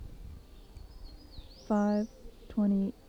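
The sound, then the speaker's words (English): Two loud, harsh, buzzy calls from a bird about 40 feet away behind a building at dawn, each lasting about a third of a second with a brief pause between, while faint high, thin song from another bird drifts underneath. “Bird was about 40 feet away from me.”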